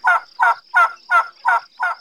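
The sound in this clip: Six evenly spaced turkey gobbles on a farm, each a short, bright, throaty burst with a regular beat, alone over a faint, steady high-pitched tone.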